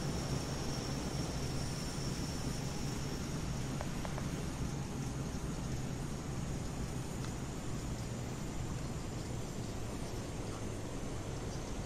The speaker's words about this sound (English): Brakes and reverse thrust, sir.